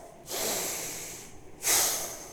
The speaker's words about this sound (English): I'm just going to take a breath.